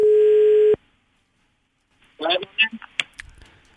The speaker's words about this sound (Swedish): Så vi tog hit hotelldirektören själv som fick ringa upp sin chef för att prata lite med honom.